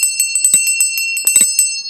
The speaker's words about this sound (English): And if I ring the story poetry bell